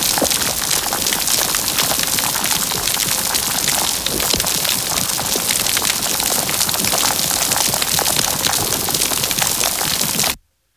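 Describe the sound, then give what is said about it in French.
Dense crackling of an underwater coral reef near New Caledonia, recorded by hydrophone: a constant fizz of countless tiny snaps that runs unbroken for about ten seconds, then cuts off abruptly. “ça, c'est le son vraiment qu'on a dans la mer quand on est proche de récifs”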